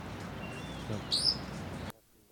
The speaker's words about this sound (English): A bunch of wild crossbills flying around the general area. 45 little calls and buzzes.